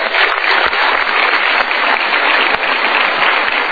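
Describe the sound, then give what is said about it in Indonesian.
Audience applause in a television talk show studio, a loud, dense, even clatter of many hands clapping that continues without a break and without any voices. “Kita berikan tepuk tangan sekali lagi.”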